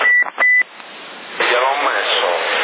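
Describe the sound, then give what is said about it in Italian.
A CB radio transmission in Sassari has an echo effect added. Two short electronic beep tones open it, then a thin, band-limited voice talks steadily through the radio. “Cos'è perché fa doppio eco? Perché è doppio bico? Perché gli ho messo l'eco.”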